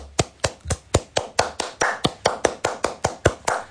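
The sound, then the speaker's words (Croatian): Steady handclaps from a lone clapper, sharp and evenly spaced at roughly four per second, continuing in an unbroken rhythm. “Sad ćeš sam pljeskati. Sad ćeš pljeskati. Sad. Oko dugo sad. Još plješći.”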